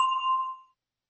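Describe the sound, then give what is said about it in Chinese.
A single bright bell chime serves as a cue in a language-lesson quiz: one clear ding that rings briefly and fades to silence in under a second. “Max 提出问题以后，请大家先听铃声，然后回答他的问题。”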